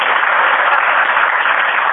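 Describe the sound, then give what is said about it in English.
Applause from a meeting audience: dense, continuous clapping that stays steady and fairly loud throughout, with a muffled, dull tone. “I guess we should be clapping, but after each one, that would be very good.”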